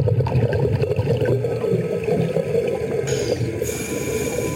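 Underwater bubbling and rushing water as a cave diver descends into an underwater cave, a continuous churning wash joined by a brighter hissing layer near the end.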